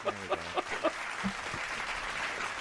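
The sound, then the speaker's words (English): Slow-clap applause sound effect: a few spaced, separate claps give way to a steady, dense wash of crowd clapping that stays at an even level to the end. “let's give them a round of applause. Sorry, I'm playing with the slow clap.”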